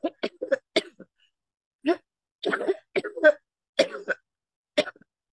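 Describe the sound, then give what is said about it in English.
Coughing and throat clearing from a tickle in a person's throat: many short, sharp bursts in uneven clusters, separated by brief silences. “Sorry. I got a little tickle in my throat.”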